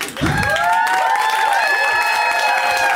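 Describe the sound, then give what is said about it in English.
An audience gives a comic a wild welcome with sustained clapping and cheering. Shrill, rising and falling whoops and shouts ride over the steady applause, which stays loud after a quick start. “So, when it's my first time seeing somebody, we give them a wild welcome.”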